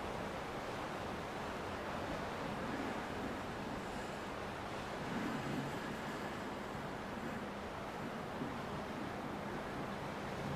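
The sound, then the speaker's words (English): Icy wind blows in a steady, even rush of noise, faint and constant throughout, with no clear gusts or other sounds. “The icy wind tumbles around you, biting at your skin.”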